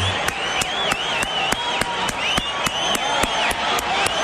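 A crowd gives a standing ovation for health-care workers' unions with fast, steady, rhythmic clapping in unison. Wavering whistles and cheers ride over the beat throughout.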